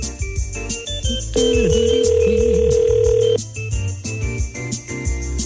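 A telephone ringback tone sounds on the line as a call goes through: one steady, even ring lasting about two seconds, heard over loud, busy background music.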